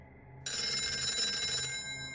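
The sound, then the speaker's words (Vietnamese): A telephone rings loudly, breaking in abruptly after a brief quiet moment and holding as one continuous, shrill, bell-like tone that eases off slightly toward the end. “Chợt chuông điện thoại vang lên inh ỏi.”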